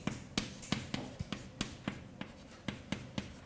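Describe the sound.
Writing an equation by hand, heard as many faint, sharp taps and short scratches of a writing tool, coming in a loose, uneven rhythm with no voices.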